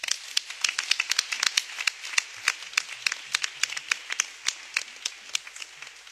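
Applause from an audience in a church celebrating a priest's golden jubilee, fifty years of priesthood: many separate sharp hand claps in an irregular, lively patter, fairly steady in loudness across the whole stretch, with no voices over it.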